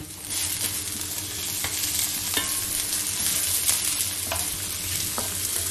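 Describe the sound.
Onion sizzles steadily in a hot pan as part of a Spätzle dish, a dense, even frying hiss that runs throughout, with a few faint clicks and scrapes of stirring on top.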